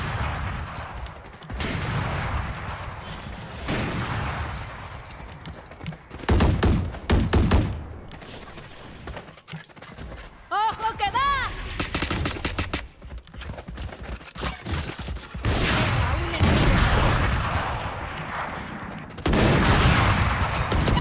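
Gunfire and grenade explosions in a video game: many rapid shots and heavy blasts spread over about twenty seconds, fairly quiet overall, with a short lull near the middle.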